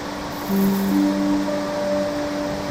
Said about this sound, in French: Vous avancez vers cette cascade et une envie irrésistible vous prend de vous mettre sous la chute d'eau.